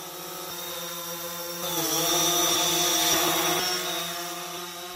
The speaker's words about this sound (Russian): Вам кажется, это жужжит надоедливая муха? Отнюдь нет. Это звук дрона, беспилотного аппарата